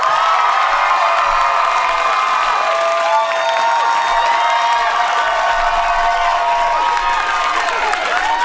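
A large New York City crowd cheers, whoops and applauds as a singer walks on stage, a loud, dense roar of screams and clapping that holds steady throughout.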